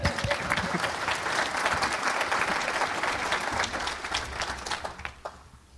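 Audience applause at the close of a NAIOP retail real estate panel, thick continuous clapping that holds steady and then thins and softens toward the end.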